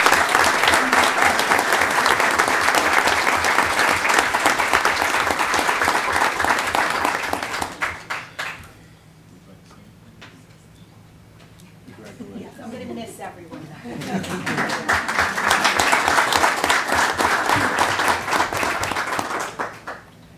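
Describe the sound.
A school district audience applauds a long-serving kindergarten teacher with loud, sustained clapping that fades out. A voice speaks briefly in the lull, then a second long round of applause swells back up.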